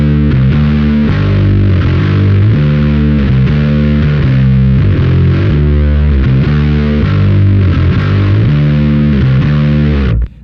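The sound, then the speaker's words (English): Massive, doomy distortion from an Earthquaker Low Signal Shredder pedal: loud, sustained, fuzzy chords that churn steadily for about ten seconds before cutting off abruptly at the end, with no voices. “I believe this Blooms pedal from Earthquaker is actually called a low signal shredder.”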